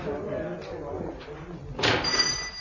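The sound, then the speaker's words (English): A shop door is opened under people talking: a soft thud and rattle toward the end, following steady murmured speech. “Hang on there in the back while I open up shop.”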